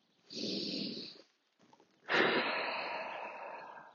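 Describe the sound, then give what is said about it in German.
Deep inhalation during a guided walking meditation: a shorter airy breath, then after a pause a longer, louder drawn breath that slowly fades. “Und dann atme hier mal tief ein.”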